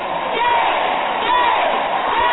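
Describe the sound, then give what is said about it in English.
A packed Capitol crowd of activists erupts after a Senate vote on an abortion bill, a dense, loud, continuous roar of many shouting voices with no single voice standing out. “A Capitol packed with activists cried shame after the Senate passed the bill.”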